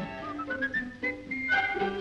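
Soft melodic whistling carries a tune through several changing notes, with rising and falling pitch across a short phrase.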